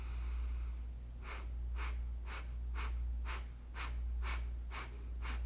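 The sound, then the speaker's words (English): Rapid, forceful exhalations from a belly-pumping breathing exercise: nine sharp, breathy bursts in a steady quick rhythm, roughly two per second, over a low constant hum. “we take a breath in, we take a full breath out, a little breath in, and then the exhalations start, and it sounds like this.”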